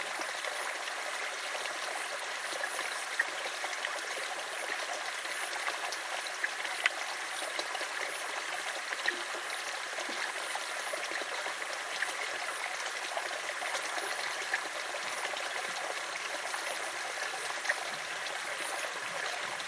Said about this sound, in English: The river's current sweeps them away.